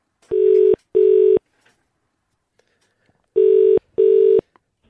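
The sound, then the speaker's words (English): A telephone number is dialed on a touch-tone keypad: four steady, equal-pitched beeps in two quick pairs, with a pause of about two seconds between the pairs. The beeps are loud and clear against near silence. “Okay, well, let's dial a number in.”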